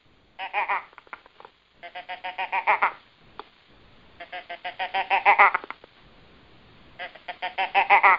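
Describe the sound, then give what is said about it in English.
An imitated doe estrus stutter blat, given as four bursts of rapid, stuttering nasal bleats. Each burst swells louder toward its end, with brief quiet gaps and a few faint clicks between them. “And that estrus blat, I'll make it for you, that estrus blat is a little stutter blat. Sounds like this.”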